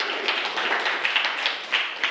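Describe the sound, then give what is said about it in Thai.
Students clapping for a classmate, a dense, steady patter of many hands blending into a continuous wash of applause at moderate level. “นักเรียนปรบมือให้เพื่อนด้วยนะครับ”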